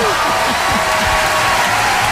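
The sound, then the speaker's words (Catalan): Audience applause at a live show for children: a dense, loud wash of clapping fills the two seconds, with a voice sounding over it. “Es mereix un aplaudiment. Vinga.”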